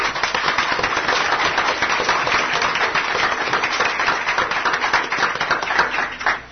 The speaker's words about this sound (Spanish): Recibámoslos con un fuerte aplauso.